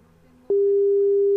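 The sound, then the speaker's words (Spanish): Telephone tone while placing a call: after a short quiet moment, a single steady mid-pitched tone starts abruptly and holds loud and unbroken to the end. “Ya, ahí estamos llamando. Ahí estamos llamando.”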